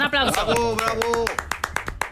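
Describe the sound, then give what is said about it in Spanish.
Audience applause at a quiz show: sharp, rhythmic hand claps with voices cheering loudly over them throughout. “Eso se merece un aplauso, ¿no? Un aplauso. Bravo.”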